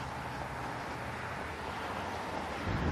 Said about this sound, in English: The wind is blowing pretty much straight out of the north.